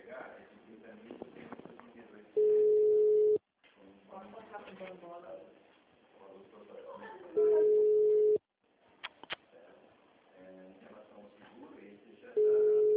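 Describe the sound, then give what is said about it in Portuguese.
Ringback tone on an outgoing phone call that no one answers: three steady, mid-pitched tones, each about a second long and roughly five seconds apart, with people talking quietly in the gaps. “Só chama, ninguém atende.”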